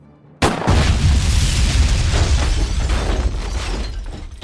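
An explosion of a car's petrol: one sudden loud blast that bursts into a sustained, dense roar and low rumble, holding strong for about four seconds with no talk.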